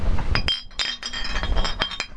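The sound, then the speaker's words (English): Glass bottles clink together in a toast, a quick run of many bright, ringing taps that overlap irregularly over a busy background. “All right, let's clink some bottles for him.”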